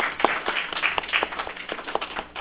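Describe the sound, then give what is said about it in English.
Church audience applauding standing fathers, a brief spell of scattered hand claps at moderate volume, uneven and fairly sparse rather than a full roar. “Let's give each father a round of applause.”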